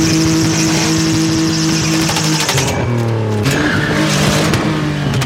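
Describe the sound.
Go-karts drift on a dusty dirt track in Mabushi, Abuja, Nigeria, their engines a loud, continuous buzzing drone with shifting pitch and a gritty, scraping hiss throughout.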